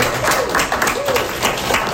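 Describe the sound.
Applause from an audience welcoming the president of a Toastmasters club in Rimouski, a steady, even wash of clapping with a brief tonal voice-like sound partway through.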